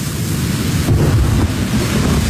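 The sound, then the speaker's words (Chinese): A thunderstorm with deep rolling thunder and gusting wind: a loud, continuous low rumble with rushing noise that swells slightly midway, with no voices. “看来是要有一场大的暴风雨”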